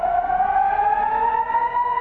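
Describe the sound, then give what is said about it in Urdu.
An air raid siren sounds in southern Israel during a rocket attack. It holds one steady, loud wailing tone with layered harmonics, drifting slightly upward in pitch, with no talk over it. “جنوبی اسرائیل میں ایسے میں ہوائی حملے کے siren بج رہے ہیں”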